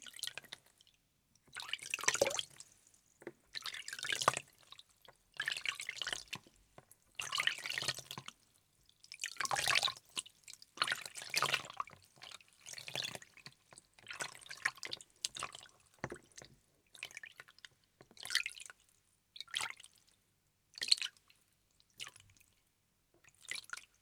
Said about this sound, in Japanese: では髪をすすいでいきますね。